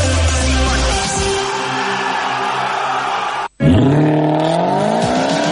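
A car engine roars loudly at high revs and cuts out for an instant. It then surges back and climbs in pitch as it revs hard again.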